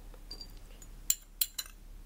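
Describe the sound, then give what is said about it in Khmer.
Garlic and shallots are dropped into a large bowl, giving three short, light clinks in quick succession against a quiet background. “យើងនឹងដាក់គ្រឿងរបស់យើងចូលទៅក្នុងចានរបស់យើងចាដំបូងនោះខ្ញុំដាក់ខ្ទឹមសហើយនឹងខ្ទឹមក្រហមចូលមុនគេ”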